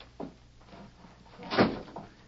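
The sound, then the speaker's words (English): A door is shut with a single muffled thud, preceded by a fainter knock. “Shut up. Close that door.”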